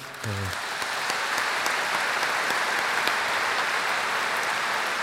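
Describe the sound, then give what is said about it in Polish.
Warm applause from an audience at a Padre Pio prayer group gathering welcoming a visiting priest as guest speaker, a full, continuous clapping that stays steady and loud throughout. “Witamy go serdecznie pośród nas, gorącymi brawami.”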